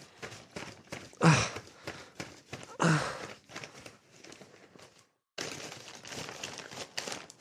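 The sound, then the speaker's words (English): Cutting a sock open: many quick crinkling snips and rustles of fabric, with two louder rasping bursts early on, then a brief silence before steadier rustling resumes. “Currently cutting the sock open.”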